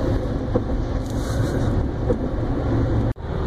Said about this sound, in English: I'm now driving on the Northeast Extension.